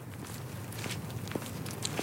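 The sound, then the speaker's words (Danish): Footsteps walk into a forest, heard as a few faint, irregular crunching steps over a steady hiss of background noise. “Nu går vi ind i skoven for anden gang.”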